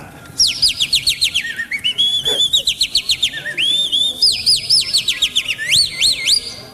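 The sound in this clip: A person whistles with the mouth to imitate a singing bird. The rapid, high warbling song has many short sweeping and trilled notes, fairly loud and heard alone.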